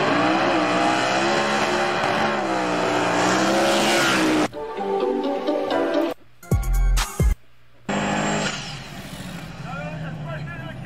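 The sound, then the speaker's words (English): Race cars roar toward the finish line at a crowded Orlando speedway, loud engine drone that breaks off abruptly, then returns in short choppy bursts with gaps, with people talking over the noise. “And look at what they're doing. They're racing the back half towards the line.”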